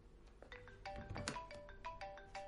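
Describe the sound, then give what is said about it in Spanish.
A mobile phone rings with an incoming call from under a seat in a damaged car: a faint, repeating electronic ringtone of short melodic tonal notes over low background noise. “El móvil de Silvia está bajo un asiento. Llamada entrante, mamá.”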